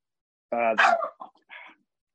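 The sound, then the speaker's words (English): A dog barks and yips a few times in quick succession, short sharp bursts with a brief pause before the last one, loud against an otherwise silent background. “sorry, dog, hold on.”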